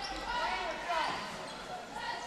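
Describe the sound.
A basketball is dribbled on a gym floor during a boys' high school game between Mishawaka and Marian. Soft, repeated bounces sit under a dense crowd wash and a talking voice.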